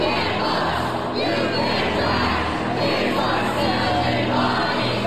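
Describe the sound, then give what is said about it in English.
Protesters chant at the Tennessee State Capitol on the day two state representatives were expelled. A dense crowd of voices shouts a rhythmic slogan in unison, loud and steady throughout, with the chant rising and falling in regular waves. “That's the sound of protesters chanting at the Tennessee State Capitol on Thursday”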